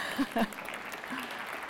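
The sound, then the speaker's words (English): Audience applause after a talk on medical training: moderately quiet, continuous clapping with brief voice sounds near the start. “Thank you, I'm gonna clap too.”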